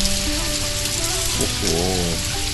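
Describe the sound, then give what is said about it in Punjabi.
Steady rain pours down in a dense, loud hiss that carries evenly throughout, while a faint tonal melody runs beneath it. “ਹੁਣ ਮੈਂ ਘਰ ਕਿਵੇਂ ਜਾਵਾਂਗਾ, ਇਹ ਬਾਰਿਸ਼ ਫਿਰ ਸ਼ੁਰੂ ਹੋ ਗਈ ਹੈ।”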